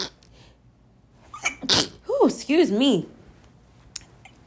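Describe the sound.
A single sharp, loud sneeze bursts out, followed by a short voiced sound from the same person, with quiet moments before and after.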